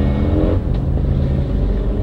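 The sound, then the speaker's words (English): Steady, loud engine roar of a group of motorcycles passing, one doing a burnout, forming a dense, continuous rumble with no clear breaks. “That was a bunch of bikes and that guy's like burning out right there.”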